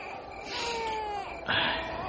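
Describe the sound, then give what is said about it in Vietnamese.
A little boy cries in a steady, high, wavering wail whose pitch sinks slightly, then breaks into a louder, harsher burst of crying near the end. “Thằng nhỏ nhè nhẹ cứ khóc hoài, hai thà dỗ hết sức mà nó không nín.”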